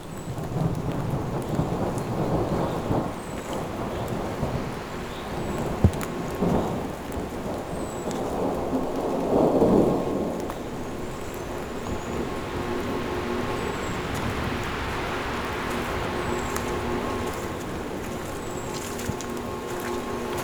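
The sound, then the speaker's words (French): Thunderstorm over a dense forested region: steady rain hisses throughout while a deep thunder rumble swells in the middle and fades back into the downpour, with no voices. “Le tonnerre.”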